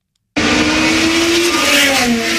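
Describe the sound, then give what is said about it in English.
Race cars roar at a street Grand Prix in the nation's capital, the loud engine noise starting abruptly after a brief silence and holding as a sustained, droning whine that shifts slightly in pitch. “High Octane Racing taking over the nation's capital for the historic Freedom 250 Grand Prix. From the speed to the deafening noise, WTOP's Jimmy Alexander”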